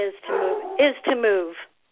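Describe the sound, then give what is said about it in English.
A startled dog barks and yelps in a few short, high-pitched bursts with a whimpering edge, loud and coming close together. “Hang on. Sorry, I scared the dog.”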